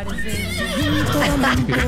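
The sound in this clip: A man's voice imitating a horse's neigh: a loud, wavering whinny with rising and falling pitch lasting the whole clip.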